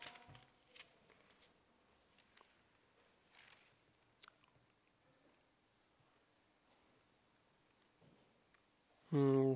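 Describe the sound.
Pages of a Bible being leafed through: a series of soft, faint papery flicks and rustles scattered at an uneven pace, followed at the very end by a person beginning to speak loudly.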